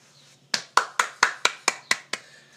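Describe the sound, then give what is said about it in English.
Eight sharp hand claps ring out in an even, steady rhythm, each crisp and moderately loud with a brief decay, after a moment of near silence. “You just ripped off Tim and Eric by doing the clap thing.”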